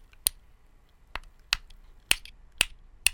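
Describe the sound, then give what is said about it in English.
A wooden clothes peg is flicked with a finger and gives six sharp, dry clicks at irregular intervals. The clicks are crisp and bright, with near-silence between them. “It's a clothes peg.”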